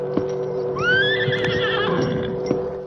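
A horse whinnies as it is reined up, one long, high, wavering neigh in the middle, with a few hoof thuds around it.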